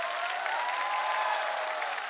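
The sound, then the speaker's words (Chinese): Audience applause for a singer after a song: a steady, even hiss of many hands clapping at moderate level, unbroken for a couple of seconds. “掌声送给亮颖，”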